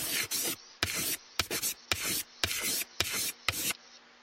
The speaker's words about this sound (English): So let's go ahead and write.